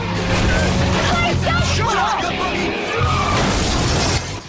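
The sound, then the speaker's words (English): A Dodge car repeatedly rams into a Chevy, with loud continuous engine rumble, squealing sweeps and scraping noise that cut off abruptly at the end. “then he veers the Dodge into the Chevy. He repeats the action.”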